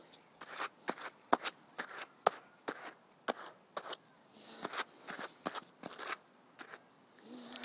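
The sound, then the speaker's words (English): Hand carding cards are scraped against each other to clear off leftover fiber, giving many dry, scratchy rasps and brisk brushing strokes in an uneven rhythm, fairly quiet and without talk. “All right, now let's clear these cards and see how much fiber we can get out of them”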